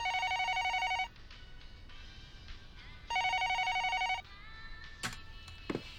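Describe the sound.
A telephone rings in two bursts of trilling, bell-like electronic tone. Each burst lasts about a second and they are separated by a pause of roughly two seconds. Faint background clatter and a few sharp clicks follow.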